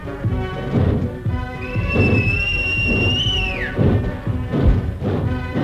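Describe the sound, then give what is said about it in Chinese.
A single whistle blown to signal a railway switchman during a traditional Chinese opera performance. It holds a steady high pitch for about two seconds, then drops away, over loud, continuous percussive stage accompaniment. “小坡赶紧向远处的扳道员吹口哨。”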